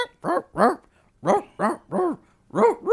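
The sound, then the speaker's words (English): Recorded dog barks played back as samples on a keyboard: six short, tonal bark yelps in an uneven rhythm, two quick pairs then a few more, each loud and clear with brief silences between. “someone just put dog noises on their fucking keyboard and they're playing it.”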